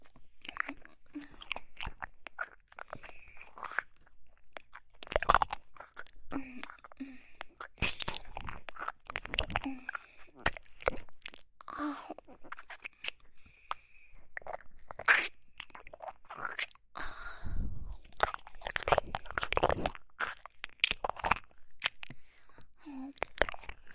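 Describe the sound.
Crunchy food being chewed in crisp, irregular crunches and bites, many of them in close succession, with soft whispering at times between them.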